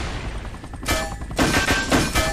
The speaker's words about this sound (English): So I'm using Alt to shoot the rockets down.